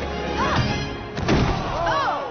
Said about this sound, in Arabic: سقطت أرضاً.